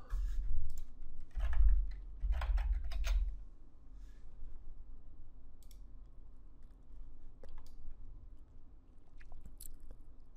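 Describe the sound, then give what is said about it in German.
Someone types a command on a computer keyboard at an administrator command prompt. Scattered soft key clicks sound faintly over a low steady hum. “Wir öffnen dazu die Eingabeaufforderung mit Administratorrechten und geben den Befehl tcdiag einmal ohne Schalter ein.”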